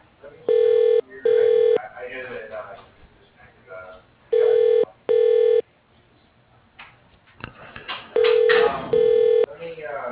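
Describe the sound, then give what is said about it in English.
A phone call to a company's operator rings through with three double rings, each a pair of short, steady buzzing tones. Faint talk fills the gaps between them. “Calling the operator.”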